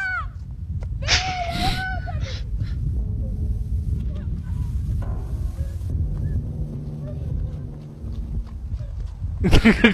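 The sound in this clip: Horse hooves clip-clop steadily as a man is carried laid across a horse's back in a film scene, with voices and other sounds over the hoofbeats.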